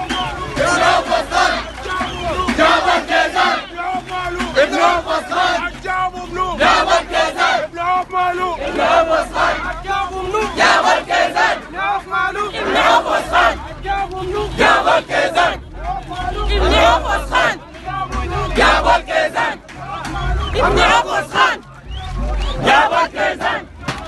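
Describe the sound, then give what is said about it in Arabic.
Displaced people in Darfur camps chant together as a loud crowd, their voices rising and falling in repeated rhythmic bursts of shouted phrases throughout. “وكانت هتاف نازحي معسكرات ولاية دارفور:”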